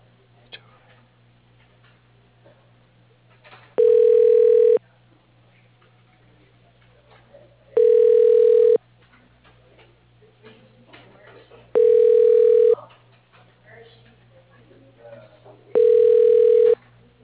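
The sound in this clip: Telephone ringback tone while a call is transferred to an extension. Four evenly spaced rings, each lasting about a second with roughly three seconds of quiet between them, sound over a low, steady line hum.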